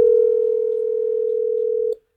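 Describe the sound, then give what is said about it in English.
Telephone dial tone heard while placing a call to a grand prize contest winner; a single steady, unwavering tone holds for about two seconds, then cuts off abruptly into silence. “Let's call this person. Let's get him on the phone here.”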